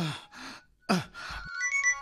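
A telephone ringtone plays a short electronic melody of bright tones, starting after a few brief breathy vocal sounds.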